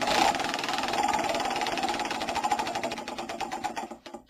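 Prize wheel for choosing trivia categories spins with a dense run of rapid ticking clicks that gradually slow and spread apart before stopping.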